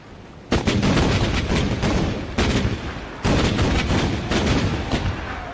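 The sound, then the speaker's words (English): Booming cannon fire from a captured island fortress giving a 21-gun royal salute. A few heavy blasts each roll into a long, loud, sustained rumble. “Our new captured fortress saluted with 21 guns.”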